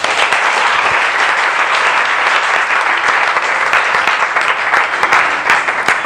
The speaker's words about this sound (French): Si tu as compris, acclame le Seigneur.